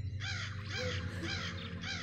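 Crows cawing in the sky under dark clouds, several harsh, rasping caws following one another in a quick, uneven rhythm, fairly faint.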